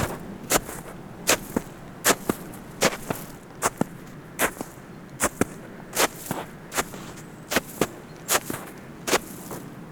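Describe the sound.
Footsteps crunching in wet snow on a steep climb toward a mountain pass. Many sharp crunches fall in a steady walking rhythm, clear and fairly loud, with no talking.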